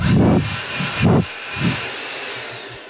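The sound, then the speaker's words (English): Gusts from an air blower wafted onto the microphone, three loud, broad rushing whooshes separated by short lulls, with a fainter hiss trailing off at the end. “That sounds like a blower. He's got it, hasn't he? And look, maybe too generous of me to waft a little bit onto the mic.”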